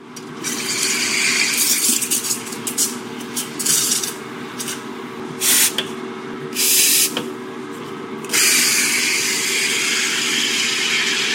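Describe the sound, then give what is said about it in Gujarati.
Steam hisses as coffee is made at Happy Frog Cafe in Coffs Harbour, northern New South Wales. Loud bursts of hiss are broken by a few short pauses over a low, steady hum. “ઉત્તરી new south વેલ્સમાં કોફ્સ હાર્બરમાં happy frog કેફેમાં coffee બનાવવામાં આવી રહી છે.”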